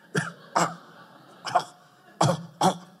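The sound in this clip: Five harsh, throaty coughs from a person, hacked out as if bringing up a hairball, in an uneven rhythm: two close together, a lone one, then two more in quick succession, with no talk.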